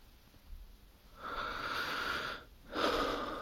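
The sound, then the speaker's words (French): Soft breath is blown close to the microphone in two airy, hushed gusts, a longer gentle exhale and then, after a brief pause, a second breath, with no talking. “Mon souffle se joint à l'histoire”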